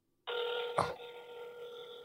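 Phone ringing tone during an outgoing call: a single steady electronic tone begins after a moment of silence, with a brief click near its start, and holds for under two seconds.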